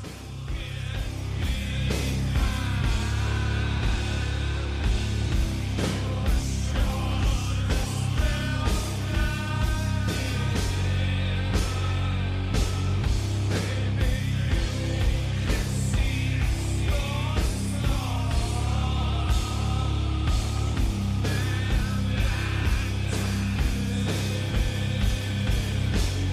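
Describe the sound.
A heavy doom metal segue between two album tracks from 1992: dense distorted guitars and pounding drums roll on loud and unbroken for the whole stretch, with no voices standing out.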